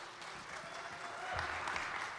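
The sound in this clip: A church audience at Abiding Word Church applauds to welcome two guest speakers, with faint, steady clapping that continues evenly throughout.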